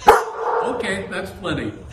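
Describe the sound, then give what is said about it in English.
Pet dogs vocalizing: a sharp, loud bark opens, followed by softer yips and whimpering sounds of varying pitch. The sounds fill most of the short stretch. “See, these are my dogs”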